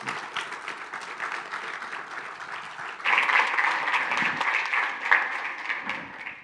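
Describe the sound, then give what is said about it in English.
An audience applauds to welcome a speaker, a brisk, even clatter of many hands that starts moderate and swells noticeably louder about halfway through, then carries on steadily. “Would you put your hands together as we welcome Ben Kreckman? Ben, come on up here.”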